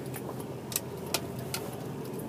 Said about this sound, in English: Apparently, there's some uncharacteristically heavy morning traffic outside of my driveway at the moment.